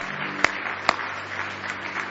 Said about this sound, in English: Give the Lord one more hand clap of praise if you love him tonight.